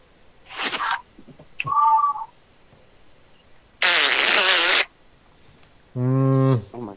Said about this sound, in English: That fart was very angry.